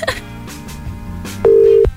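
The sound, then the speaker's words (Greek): A telephone tone sounds while a call is being placed: a few faint clicks and low rumble, then one loud, steady single tone lasting under half a second that cuts off abruptly. “Πάμε να καλέσουμε λίγο.”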